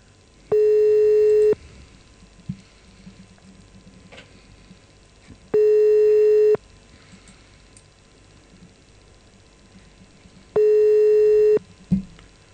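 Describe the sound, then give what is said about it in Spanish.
Telephone ringback tone heard while calling a police station. Three long, steady tones, each about a second long, are evenly spaced with quiet gaps, and a brief click follows near the end. “Estamos llamando a la comisaría 8, no, a la comisaría de la comuna 8 en Lugano.”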